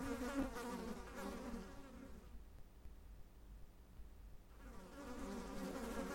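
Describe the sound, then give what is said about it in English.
Flies and other insects buzzing inside a cupboard: a faint, droning, harmonic hum that drops away for a couple of seconds in the middle before swelling back. “Check that cupboard! It's empty, well, apart from all these insects.”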